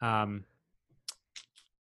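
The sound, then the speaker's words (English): Computer mouse clicks while going through documents: a brief voice at the start, then three light, crisp clicks in quick succession against near silence. “I'm clicking through on this.”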